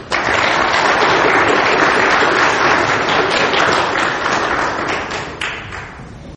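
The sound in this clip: Audience applause welcoming a speaker: loud, dense clapping from many hands that holds steady for about five seconds, then tapers off toward the end.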